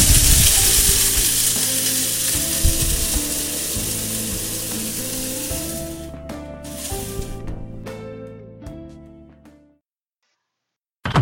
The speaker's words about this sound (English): I gotta grind these coffee beans.